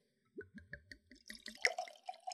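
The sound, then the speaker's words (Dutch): Wine poured from a bottle into a glass: a few hollow, gurgling glugs give way to a brighter, splashing trickle of liquid, moderately loud with no voices. “En ik schenk natuurlijk eerst even voor Kees in.”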